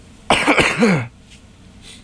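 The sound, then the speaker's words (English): A person's raspy cough: a single harsh, loud burst lasting under a second, then quiet. “Excuse me. I have a little bit of a cough.”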